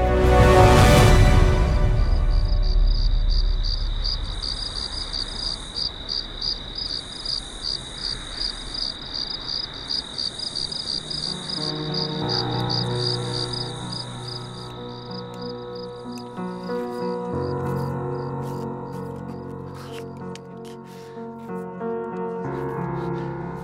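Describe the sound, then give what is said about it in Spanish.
Crickets chirp in a steady, rapid, high-pitched pulsing stream that lasts throughout, after a loud burst at the start. A melodic instrument joins underneath in the second half. “y con el canto de los grillos, prosiguieron su viaje.”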